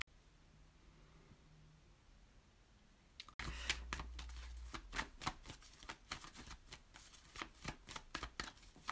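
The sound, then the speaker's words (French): Tarot cards being shuffled and handled while one is drawn from the deck: quiet at first, then a sudden run of many rapid, crisp paper ruffles and flicks that continue steadily to the end. “attends, je vais sortir une autre carte pour la tour”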